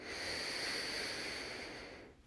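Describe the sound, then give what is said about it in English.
A slow, deep breath in during a guided breathing exercise, heard as a sustained soft hiss of air lasting about two seconds that fades and stops near the end, with no talking. “Connect to your breath. Go inward. Take a deep breath in.”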